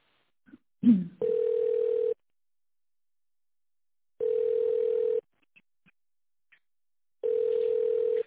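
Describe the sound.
A telephone line plays a steady, low ringback tone while a call is being transferred. Three even beeps of about one second each are separated by two-second silences, and a brief click comes before the first beep.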